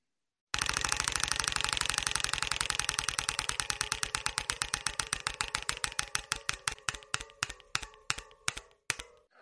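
Game show prize wheel spins with a loud, rapid run of clicking ticks that slowly loses speed, the clicks spreading farther apart until it nearly stops.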